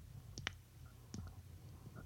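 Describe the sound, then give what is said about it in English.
A thumb joint clicking, a few very faint, sharp clicks spaced unevenly over a low, quiet hum. “Alright, you can click your thumb.”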